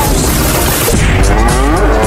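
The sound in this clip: A cow that escaped a live nativity scene in a city moos loudly, one drawn-out, wavering low call rising out of a dense, noisy background.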